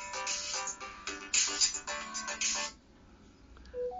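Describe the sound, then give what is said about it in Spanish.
A telephone ringtone plays a run of bright, melodic electronic notes for under three seconds, then cuts off abruptly, leaving near quiet. “ahí te está sonando el teléfono, ahí está, no, apágalo.”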